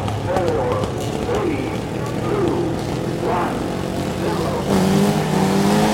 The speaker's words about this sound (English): they're off! Ah, as I suspected, Clever Trevor was facing the wrong way and he's driven straight out of the stadium, so he's out of the race. Never mind, it's still going to be an exciting race.